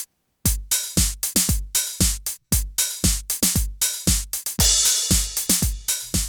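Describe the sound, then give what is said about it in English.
909 drum machine beat in a mono mix from a song's multitrack: a steady pattern of many punchy kick hits with short decaying tails and brighter percussive hits, played alone without voices. “The multitrack offers this a mono mix of the 909 drums, and they sound like this.”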